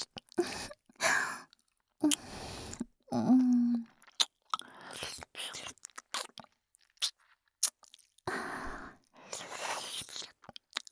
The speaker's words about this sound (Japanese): あなたの耳すごくおいしい。ペロペロ。